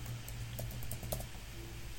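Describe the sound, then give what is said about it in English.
Faint keystrokes as a username and password are typed on a computer keyboard, a few light, irregular clicks over a low steady hum, with no talking. “So if we click on the username and put in the username and put in the password”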